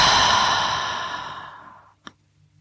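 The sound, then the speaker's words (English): A long, breathy exhale through the mouth during a guided breathing exercise. It starts full and gradually fades out over about two seconds, followed by a single soft click. “The next inhale through the nose. Exhale through the mouth.”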